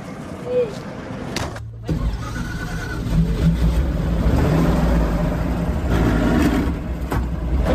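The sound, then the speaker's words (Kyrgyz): An old Soviet-era bus engine rumbles steadily as the bus sets off from a town in Kyrgyzstan, a loud low drone with rattling noise that grows slightly stronger after the first couple of seconds. “Ал үчүн атайын ушундай союз кезинен бери каттап жүргөн эски автобустар каттамды аткарат. Анда эмесе кеттик.”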